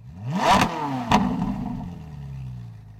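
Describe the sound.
A Ferrari car engine revs hard in a loud burst, with a sharp mechanical clatter partway through, then the engine note drops in pitch and tails off.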